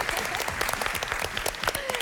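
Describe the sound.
Audience applause rings out during a competition show heading into its final round. It is a dense, lively patter of many hands clapping at a steady level.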